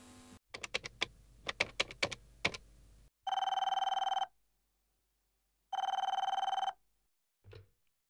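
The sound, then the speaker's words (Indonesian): A telephone rings while calling a hotel receptionist to order food: a rapid run of key clicks, then two long, loud electronic ring bursts separated by a pause, with a faint short sound at the end. “Ya sudah, Coba kita hubungi resepsionisnya saja ya.”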